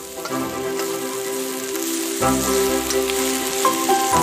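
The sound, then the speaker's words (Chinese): Wild onions stir-fried over high heat in a wok with garlic and pickled chillies give a steady, crackling sizzle that swells slightly louder partway through. “酸辣汁气顿时升腾，随后加入野葱，大火快速翻炒，”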